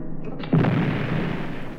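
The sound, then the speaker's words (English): A dynamite blast goes off in a single sudden boom, followed by a dense rumbling roar that slowly fades. “Stand still, we're gonna blast.”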